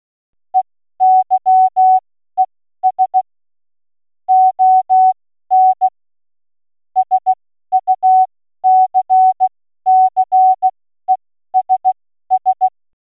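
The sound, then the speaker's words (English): Morse code beeps spell out the phrase "Eyes on Success" in a single steady mid-pitched tone. Many short dots and longer dashes come in clusters separated by brief gaps, clean and loud with nothing else behind them. “No, your sound system is not broken, and it's not an emergency alert from the nation's alert system. That was Morse code for the words Eyes on Success,”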